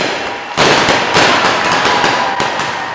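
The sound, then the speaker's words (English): Confetti cannons detonated at a graduation ceremony: a sudden loud burst followed by sustained dense crackling and hissing, with another sharp hit near the end. “detonated the confetti cannons.”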